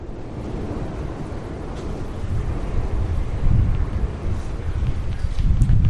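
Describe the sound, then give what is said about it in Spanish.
Low, roaring rumble of a lava flow on the north face of a volcano on an island near the sea, mixed with cold wind; a dense, steady noise that swells louder partway through, with no voices. “La lengua de lava se confunde con un viento, hace un frío que pela.”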